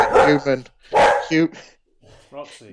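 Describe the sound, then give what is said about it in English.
A dog barks a few times in loud, short bursts, each with a rough onset and a tonal tail, followed by a fainter yip after a brief pause. “Dog.”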